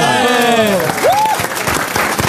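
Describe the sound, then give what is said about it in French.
Audience applause, dense and steady for the full few seconds, with raised voices and a short gliding vocal sound rising above it near the start. “On est obligé d'applaudir quand il prononce correctement.”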